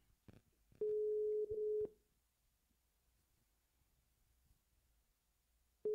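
Ringback tone of a phone call that goes unanswered: a quiet, steady mid-pitched tone lasting about a second with one brief break, then silence until the next ring starts at the very end.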